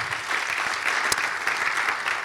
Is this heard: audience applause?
yes